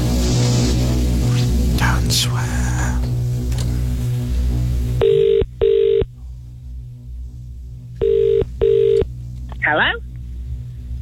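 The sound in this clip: A telephone rings on an outgoing call. After a stretch of talk, the ringback tone sounds in two double-ring pairs, each pair made of short, steady, even bursts separated by a pause.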